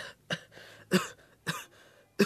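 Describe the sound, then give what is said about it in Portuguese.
A man in a hospital coughs four times, each a harsh, abrupt burst with short pauses between. He is heard alone, with no talk. “Doutor, o meu irmão não consegue parar de tossir.”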